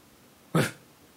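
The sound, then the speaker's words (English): A person imitates a puppy's first bark: one short, hoarse, breathy yelp that stands alone against a faint background. “First time I heard him bark, he woke up, he was like, mm-hmm. Woke up. And then all of a sudden he goes,”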